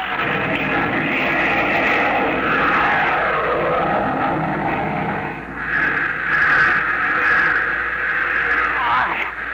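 A rocket engine fires at launch, a loud, dense roar that holds steady throughout. The rushing noise shifts a little in tone without fading, and no voices are heard.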